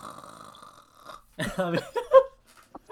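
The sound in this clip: A human voice imitating a snore, a rough, raspy guttural snort that swells into a few loud bursts after a faint, quiet stretch, then trails off into soft breathy sounds.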